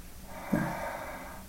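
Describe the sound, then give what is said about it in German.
A single snorting breath from a relaxed woman who is sleeping, brief and faint over a steady low hiss. “sie schläft. Also sie ist so entspannt und sie schnauft genau so, wie ich all die Ferien, die ich mit ihr verbracht habe.”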